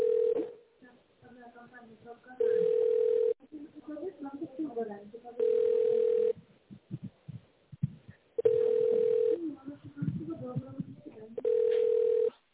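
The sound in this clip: A telephone ringback tone plays while a call is being transferred: four steady, mid-pitched beeps, each about a second long and spaced about three seconds apart, with faint, muffled sounds in the gaps between them.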